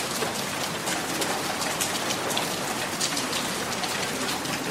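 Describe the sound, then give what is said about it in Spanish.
Steady rain falls, a constant broad hiss of many fine drops striking a surface, even in level from start to end. “¿No sienten esa lluvia que moja ahora mismo nuestros rostros?”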